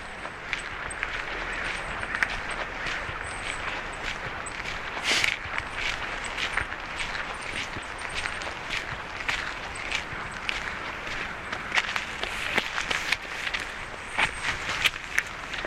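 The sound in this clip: A runner's footsteps on a forest trail make many steady, regular footfalls that continue throughout at an even level.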